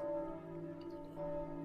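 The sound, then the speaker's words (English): A bell rings in a city scene of a video game, a quiet, sustained tone with a low hum underneath that swells again near the end. “here is a bell that means something bad's about to happen”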